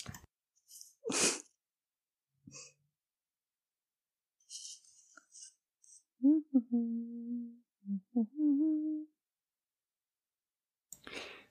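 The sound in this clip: Someone coughs after choking on coffee, with a few sharp, breathy, sporadic bursts separated by long silences. Short strained voiced sounds come in between, and everything stays faint.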